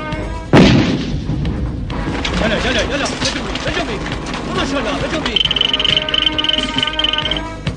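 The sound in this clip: Artillery fire opens with one sharp, heavy boom, then gives way to continuous rumbling, thudding and clatter. A thin high whine joins in the final seconds, and a murmur of voices runs beneath.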